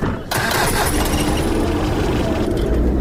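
A vehicle engine runs with a loud, steady rumbling drone as the driver sets off, holding a constant level throughout.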